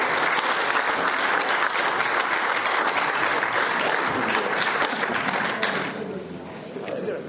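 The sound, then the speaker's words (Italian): Audience applause for an author at a book presentation: sustained, dense clapping at a steady level for about six seconds, then thinning and quieter toward the end. “e lo ringraziamo ancora con un applauso”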